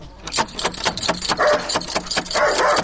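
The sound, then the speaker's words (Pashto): A fierce dog barks behind a door in a rapid string of harsh, loud barks. The barks come in quick succession, nearly continuous, with a few brief pauses. “اوهو، دا څه بد سپی لري چې ومونه داړي.”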